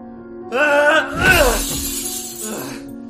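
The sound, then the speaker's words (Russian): Mirror glass smashed by a fist shatters in one loud crash near the middle, with scattered debris trailing off over a steady tonal background. “С криком он разбил ударом кулака ненавистное ему изображение и опустился рядом, прямо на осколки.”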